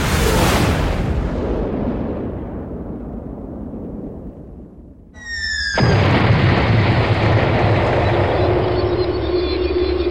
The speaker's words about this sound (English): I'll just turn on Seek the Mouse Missile. It senses a mouse nearby. Now it's warming up, setting its coordinates, and away it goes.